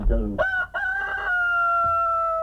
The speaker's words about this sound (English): Shut up, chicken.